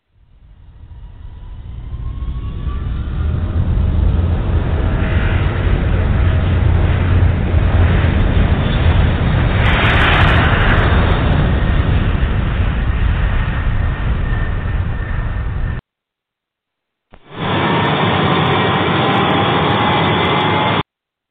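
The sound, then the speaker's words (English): An airliner roars down the runway on its takeoff roll. The loud, steady engine rumble builds over the first few seconds, holds strongly, then cuts out briefly near the end before resuming. “You're cleared for takeoff, runway 36. Roger, Washington, Eastern 483 on roll, runway 36.”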